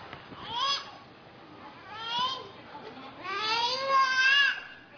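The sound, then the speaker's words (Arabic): A baby, the little brother of a boy with full disability of the hands and legs, cries in three wavering bursts, the last one longest and most strained, rising into a high, harmonic wail. “ده هنا الطفل بيعيط، اخوه الصغير بيعيط،”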